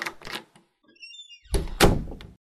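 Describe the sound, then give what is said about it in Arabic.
A door being opened in a staged comedy scene: dull thunks and handling knocks, a brief quiet gap with faint high squeaks, then a heavier solid thump as it swings open. “هروح افتح انا الباب لكامل يا جماعه.”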